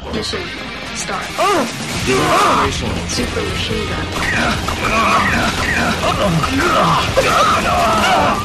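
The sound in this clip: Grunting, yelling and screaming voices from a lavishly animated, very difficult 2D action game, mixed with crashing hits and thwacks; loud and continuous, with strained cries over a dense clatter.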